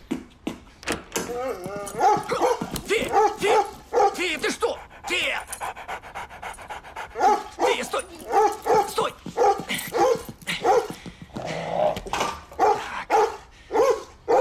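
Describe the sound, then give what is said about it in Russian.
A dog leaps out at a man who has just opened the door and licks him eagerly, panting hard with excited whimpers, yips and a few short barks running almost without pause. “На него выпрыгивает собака, радостно облизывая его.”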